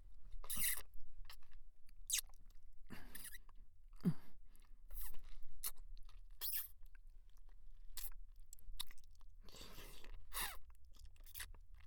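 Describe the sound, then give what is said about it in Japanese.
Wet licking and mouth sounds, many short, soft smacking and slurping bursts spread irregularly across the stretch, fairly faint and with no talking. “あ、こっちは舐めるよ。”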